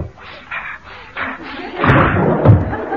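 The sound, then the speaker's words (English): A window being opened: a couple of muffled low thumps and a brief rattle in the second half, after quieter scuffing knocks. “I really must open the window.”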